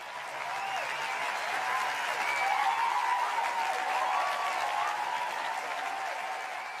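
Applause greeting the host of a hip-hop and self-help show, a steady, even wash of clapping at a moderate level that holds throughout.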